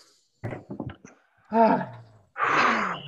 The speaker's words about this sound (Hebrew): שאיפה עמוקה.